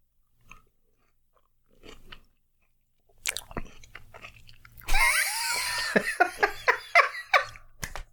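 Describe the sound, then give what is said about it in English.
An orange is being eaten: a few faint clicks and rustles come first, then a busy stretch of wet chewing with juicy squelches and crisp snaps, with no talking. “I have an orange. Orange ASMR.”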